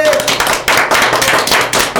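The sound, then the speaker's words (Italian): Applause for a group called the fairies during a party game. Loud, busy clapping comes in quick overlapping bursts, with a few brief pauses. “Un applauso a queste fate!”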